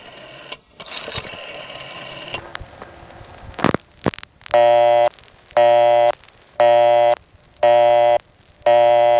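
A telephone busy signal follows several clicks and handling noises at a payphone after a number is dialed. Even on-off tones repeat at a steady rhythm, four full beeps and a fifth cut off at the end.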